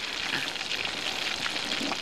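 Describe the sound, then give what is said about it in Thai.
Spring rolls fry in hot oil in a pan, giving a dense, steady crackling sizzle that holds at an even level throughout. “ดูว่าน้ำมันร้อนไหมแล้วเราก็เอาเปาะเปียกลงไปทอดได้เลยร้อนแล้วล่ะค่ะอันนี้ก็ลงได้เลย”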